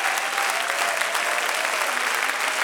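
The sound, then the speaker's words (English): Congregation clapping hands during a church worship service, a dense, steady wash of applause that stays loud and even from start to finish without breaks. “I wish you would clap your hands if you're thankful for his presence.”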